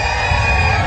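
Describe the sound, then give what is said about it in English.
Thousands of fans at the 4th of July Makawao Stampede, Hawaii's largest rodeo on Maui, cheer in a brief, loud, sustained crowd roar with yells mixed in. “That's the sound of thousands of fans at the 4th of July Makaua Stampede on Maui.”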